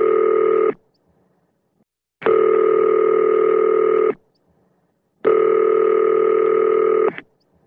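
A telephone rings through to a voicemail line in three long, steady electronic ring bursts. The first is cut short. The rings are loud and separated by silent gaps, with no voices.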